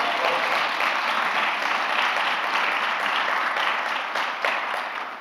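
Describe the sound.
An audience claps to welcome a speaker to the front in sustained, dense applause that holds steady for about five seconds before easing slightly.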